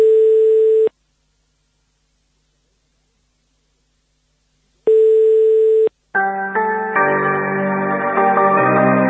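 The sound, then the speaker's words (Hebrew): Two long, steady, mid-pitched ringing tones, about four seconds apart, sound as a telephone call is placed to a prime minister's residence. A dense tonal sound with several layered pitches then starts and continues to the end. “בואו נשמע איך הוא מחייג לבית ראש הממשלה, בבקשה.”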